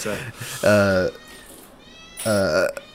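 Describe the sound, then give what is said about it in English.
A pet cat screams at home as her companion arrives, two loud, drawn-out meows that waver in pitch, separated by a quieter stretch. “My cat's screaming because her girlfriend just got home.”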